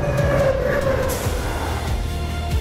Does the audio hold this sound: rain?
no